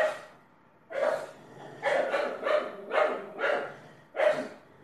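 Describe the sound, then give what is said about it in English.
A dog barking repeatedly, many sharp, loud woofs in an uneven run after a faint opening sound, each bark short and separated by brief pauses. “I'll let him finish barking. Do you hear the dog? That is one thing I will not miss with this job, is that dog barking all day.”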